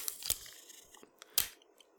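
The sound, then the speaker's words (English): Scotch tape pulled and torn as a Foley effect: two sharp, crackling rips about a second apart, with faint crinkling between them and a short tail after the second, louder burst. “All right, and then I got Scotch tape.”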